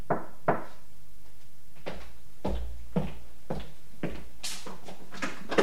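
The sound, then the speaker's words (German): Someone knocks on a door at the top of a back staircase, a few sharp, faint raps spaced out over a quiet, muffled background. “stieg die Hintertreppe hinauf und klopfte. Wie verabredet, dreimal.”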